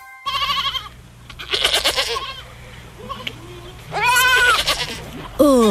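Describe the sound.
A white goat out at pasture bleats several times in wavering, nasal cries, some rising and falling in pitch, over a low steady hum.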